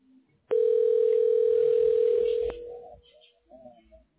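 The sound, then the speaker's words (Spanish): Telephone dial tone heard while placing a call: a single loud, steady, unbroken tone that holds for about two seconds and then cuts off, leaving only faint low noise. “Sí, ya, ya le estoy marcando, a ver si me contesta.”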